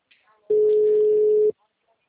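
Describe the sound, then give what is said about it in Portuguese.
The ringback tone of a telephone call that goes unanswered: one steady, even beep at a single pitch lasts about a second, with quiet, faint sounds before and after it. “para mim é que você está chamando, chamando, chamando, não está atendendo, não.”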